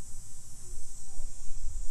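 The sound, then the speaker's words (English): Insects chirp in a continuous high-pitched drone, a steady shrill band of sound running through the whole clip above low rumbling background noise. “The insects that we hear, they don't know like we know, but they are doing what God has ordered them to do.”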